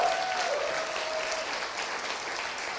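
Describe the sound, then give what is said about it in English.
A crowd at a religious gathering applauds in a steady, dense patter of clapping that holds at an even level for a few seconds, without clear cheering or speech. “Hey, come on, somebody make some noise for Jesus real quick.”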